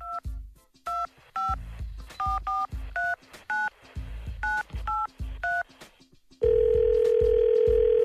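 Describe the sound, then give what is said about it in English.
Telephone number dialed with DTMF keypad tones: a quick run of short, bright beeps in an uneven rhythm, each paired with a low thump, then a loud, steady, unbroken line tone holds to the end. “So let's dial a number.”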